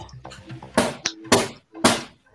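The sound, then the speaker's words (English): Three hollow knocks on a cardboard box, fairly evenly spaced and loud, follow a stretch of softer voice-like sound. “She's knocking on the box.”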